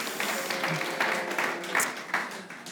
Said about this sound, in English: Let's give a hand for the guys from London.